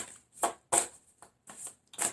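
Tarot cards being shuffled to draw one more card: five short, crisp riffling bursts in an uneven rhythm, separated by brief quiet gaps and fairly soft overall.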